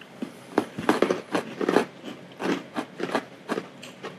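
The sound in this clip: Crunching of crisp kruidnoten, small spiced cookie bites, as they are bitten and chewed. Many sharp, dry crunches come in an uneven rhythm, clustered early and spaced out later.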